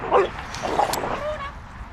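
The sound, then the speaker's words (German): Two female dogs play roughly, the younger one jumping at the older one's face: short yips and whimpering barks in quick bursts, fairly faint over a noisy background. “Sie springt der älteren Hündin gegen das Gesicht und wird immer ruppiger.”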